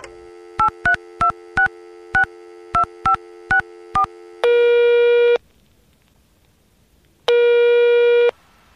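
Telephone tones leading into a voicemail: a quick series of touch-tone dialing beeps, then two long, loud ringing tones separated by a silent pause.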